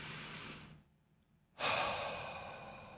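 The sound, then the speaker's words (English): A person takes a deep breath in through the nose and lets it out through the mouth. A soft, airy inhale is followed by a short pause, then a louder, longer breathy exhale that slowly fades. “just take a deep breath in through the nose”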